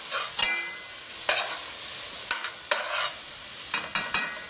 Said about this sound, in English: We're going to take our garlic, and we'll put that in. I'm just going to stir this around a little bit, and we're going to let those flavors develop.